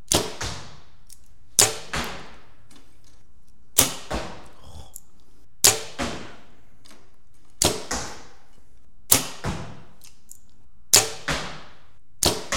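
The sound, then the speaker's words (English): Arrows shot from a 90-pound bow, a regular series of sharp, loud cracks, each followed quickly by a softer second knock, spaced roughly every two seconds with quiet between them. “I think I was shooting a 90-pound bow.”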